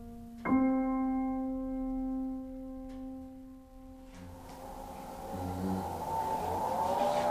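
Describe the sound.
A motorized wheelchair powers on in an apartment with a sustained electronic harmonic tone. A faint whirring hum with shifting tones follows as it starts moving, all fairly quiet.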